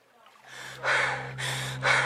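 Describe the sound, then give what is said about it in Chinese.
Rapid, heavy human breathing, a quick run of loud, harsh breaths with gasping edges, each burst rising sharply then easing, over a steady low hum. “耳边传来急促的呼吸声。”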